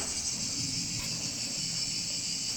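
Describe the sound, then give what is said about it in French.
Cicadas sing at Carcassonne in a steady, high-pitched buzzing drone that continues without a break, fairly faint and heard alone. “C'est les cigales qui chantent quand on était à Carcassonne.”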